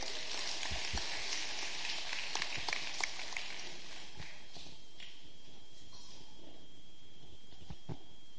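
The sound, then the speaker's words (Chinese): A church audience claps to welcome the pastor, a faint, dense patter of applause that thins out partway through into a few scattered claps. “好，我们一起拍手欢迎我们的牧师。”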